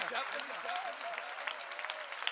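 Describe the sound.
Dense, steady clapping rises from a crowd at a devotional chant, running under a chanting voice throughout.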